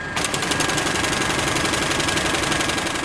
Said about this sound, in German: Mit dem Doppelmessermähwerk kann er höchstens zwei Stundenkilometer schnell fahren.